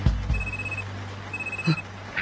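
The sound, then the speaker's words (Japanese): A telephone ringing in two short electronic bursts of a high tone, fairly faint over steady background noise and a low hum. “電話。”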